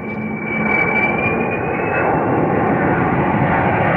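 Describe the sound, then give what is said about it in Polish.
Jet engines roar on a Boeing 747 Supertanker firefighting aircraft, a loud, steady, broad rumble with a high whine that climbs slowly in pitch and then holds. “Boeing 747 Supertanker.”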